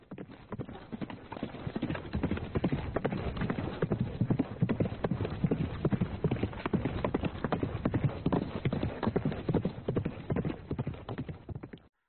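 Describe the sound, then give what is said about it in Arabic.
Hooves of a mare prancing and dancing, as an audiobook sound effect: a dense, steady run of many quick clip-clops, lively and unbroken, with no clear neigh. “ركبت دانة ظهر شهباء لتتراقص بها مهرتها بخفة ورشاقة، وتلف وتدور وتصهل بصوت جميل”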